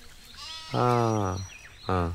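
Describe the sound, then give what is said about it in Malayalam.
A household goat kid bleating: two loud, harmonic, nasal bleats, the first long and wavering, the second short and cut off at the end. “എടാ അമ്മിണി ഇല്ലടാ. അമ്മിണി എടാ വീട്ടിലെ ആട്ടിൻകുട്ടി.”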